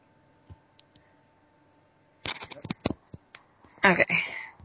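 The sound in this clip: Rustling, thumps and clicks of a person climbing from the back seat to the front seat of a car: a few faint taps at first, then a dense, uneven burst of shuffling and bumps.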